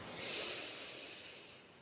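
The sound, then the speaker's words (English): A soft breath is drawn in through the nose during a guided breathing meditation, heard alone as a faint airy hiss that swells briefly and then fades. “So we breathe in”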